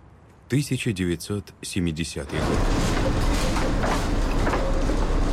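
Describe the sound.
A tram rolls along its rails as a steady, loud rumble that begins after a short stretch of voice and then holds evenly to the end.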